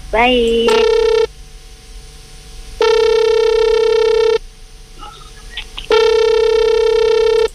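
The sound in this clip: An outgoing telephone call placed on air at a radio station, with a short rising chirp followed by three long, steady buzzing ringback tones separated by even pauses.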